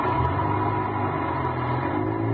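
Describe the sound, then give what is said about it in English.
Engine rumble of a bus pulling out, a steady low drone that holds at an even loudness throughout, with no voices. “I ducked behind a post and waited. Waited until the bus pulled out.”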